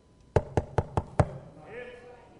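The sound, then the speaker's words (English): Five evenly spaced, crisp knocks on a church door ring out in a quick steady rhythm, after which a faint voice begins to speak. “I stand outside the church knocking on the door.”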